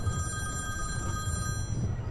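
A telephone ringing, its steady electronic ring tone held throughout with a low hum beneath and no voices.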